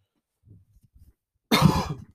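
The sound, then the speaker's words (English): A single loud, rough cough bursts out after a short stretch of faint, low shuffling sounds. “Excuse me, I just had the cough right there. Didn't want to cough into the mic”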